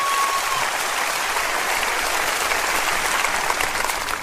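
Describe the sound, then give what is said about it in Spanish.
Crowd applause during a religious sermon, a continuous dense patter of many hands clapping at a steady, fairly loud level throughout. “Dele un aplauso a Él, por favor.”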